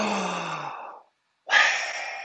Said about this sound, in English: And he breathes on them.